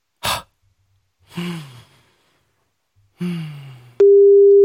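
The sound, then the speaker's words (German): Phone call tones after pressing call: two rising-then-falling electronic tones with gaps between them, then a sustained steady tone starting near the end. Each tone is fairly loud, and there is no talk. “Und drücke jetzt auf Anrufen.”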